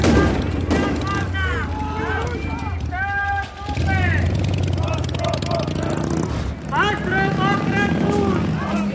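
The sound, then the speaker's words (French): Sharp cracking blows as marble is smashed into projectiles to throw at police during a riot, a few hard impacts under loud shouting voices. “C'est le bruit de marbre qui sont cassés pour faire des projectiles contre les policiers.”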